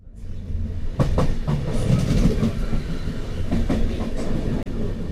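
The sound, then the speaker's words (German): A regional express train rolls along the tracks through the Po Valley near Bergamo, Italy: a steady, loud, low rumble of carriages with rhythmic clickety-clack from the wheels, continuous throughout. “Der Regionalexpress rollt durch die Poebene. Wir sind kurz vor Bergamo.”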